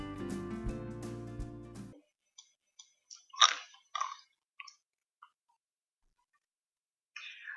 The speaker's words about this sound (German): Was machst du da? Essen. Essen? Ja. Bist du in der Mittagspause nicht dazu gekommen, oder was?